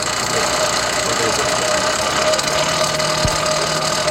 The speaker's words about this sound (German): Was man hier gerade ganz wunderbar hört, ist diese wunderschöne alte Esse, die wir haben. Die, habt ihr das schon beschrieben, mit einem alten Fahrradhinterrad angetrieben wird.